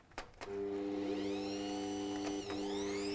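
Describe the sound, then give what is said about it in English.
An electric stand mixer starts up as sugar is being mixed in. Two quick clicks come first, then the motor rises into a loud, steady whirring hum with a brief wobble in pitch partway through. No one speaks. “I'm going to go ahead and start my mixer.”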